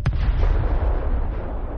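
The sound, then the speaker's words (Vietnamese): An explosion effect for a golden paper talisman bursting apart: a sudden sharp blast opens, then a deep, rolling boom rumbles on heavily for nearly two seconds, with no voices. “lá phù vàng đột nhiên nổ tung, hóa thành một tấm thuẫn trắng lớn ở trước người Lê Trí.”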